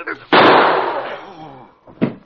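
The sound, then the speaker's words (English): A single gunshot goes off during a struggle over a gun: a loud, sharp crack with a long decaying tail that fades over about a second, followed by a shorter burst of sound. “He gets shot in struggle? Just graze his head. He'll be all right.”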